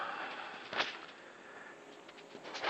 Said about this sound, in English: I've got some pretty happy birds outside, so we'll see how they sound.